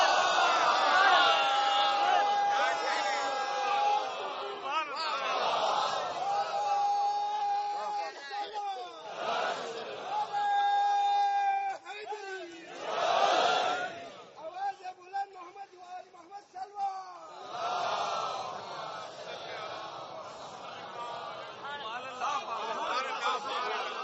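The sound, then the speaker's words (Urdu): A crowd chants slogans in rough unison at a gathering. The voices rise in sustained, tonal waves with short dips between phrases, and the chanting stays energetic throughout. “نعروں میں بڑا جوش ہے, درود دھیمی ہے”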